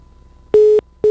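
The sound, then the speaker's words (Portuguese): Telephone busy tone after a dropped call: a steady, low electronic beep sounding in two loud pulses separated by a short silent gap. “Perdemos o sinal do Bruno, né? A gente vai refazer, na verdade, a ligação aqui para continuar falando com ele.”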